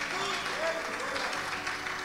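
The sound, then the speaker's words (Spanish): Congregation applause in a church service, a steady wash of clapping running through the whole clip with a voice speaking over it. “Dale un aplauso al Señor con todo el corazón, porque hoy Dios nos va a hablar.”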